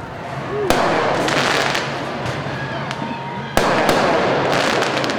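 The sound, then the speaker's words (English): Fireworks going off near a crowd gathered on a highway, with dense continuous crackling and popping and two sharper, louder bursts standing out from the steady barrage. “What's with the flashes, man? Is that fireworks or something?”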